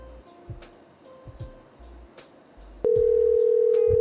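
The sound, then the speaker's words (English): Telephone dial tone and number dialing: a few short, faint tones and clicks, then a loud, steady dial tone that holds to the end. “I'm just going to dial numbers like crazy. I'm just going to dial as many as possible.”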